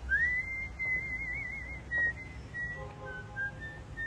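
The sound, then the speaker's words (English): A person whistles along to a tune, a thin, fairly high, wavering line of notes held over a low background hum, with no speech. “smiles and whistles along”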